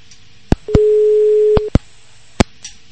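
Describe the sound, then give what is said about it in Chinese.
Telephone busy signal on a line jammed by too many callers: one steady low tone lasting about a second, framed by sharp clicks, with a few more clicks afterward and no speech. “可能因为太多的人打这个电话了，可能憋住了，这个电话线呢憋住了”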